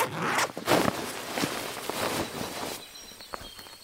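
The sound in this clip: A zipper on a book bag is pulled open in a few rasping strokes, loud at first and then trailing off into quieter scratchy sounds.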